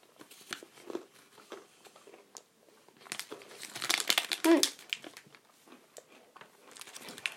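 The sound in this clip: Oreo cookies are eaten amid crinkling packaging, with crisp crunchy bites and scattered crackles that swell to the loudest cluster midway, then taper into quieter chewing.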